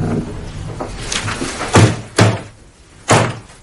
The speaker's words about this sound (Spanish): Ella se levanta y cierra la puerta del dormitorio.